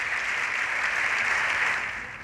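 Members of the Spanish Congress give Pedro Sánchez an ovation after his announcement, a dense, steady wall of applause that fades slightly at the end.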